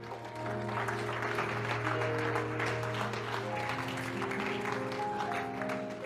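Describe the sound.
A church audience applauds in a sustained, even stream of clapping, with steady held musical tones running underneath.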